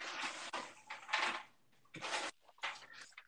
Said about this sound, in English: Sorry, I'm stirring.